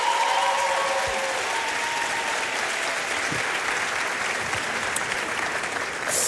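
Audience applause at an awards ceremony for the nominated artists, a thick, even roar of clapping that holds steady throughout and thins slightly toward the end.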